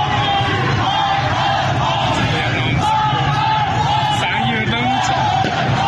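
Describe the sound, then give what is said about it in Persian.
Protesters in Izeh, Iran, chant slogans against the country's leaders on a video recording: a loud, unbroken crowd of shouting voices with occasional yells and whoops rising above. “این اعتراض‌ها از جمله در شهر کرد اندیمشک، درود و ایزه رخ داده و در آن معترضان علیه رهبر جمهوری اسلامی و دیگر مقام‌های نظام شعار دادند. صدای ویدیویی از ایزه را می‌شنوید.”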